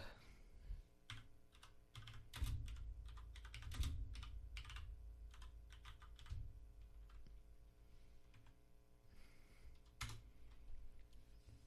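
Typing on a computer keyboard: many quick, faint keystrokes in an uneven rhythm, with a few heavier presses among them.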